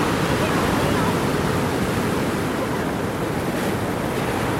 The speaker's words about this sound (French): Ah, le calme de la mer.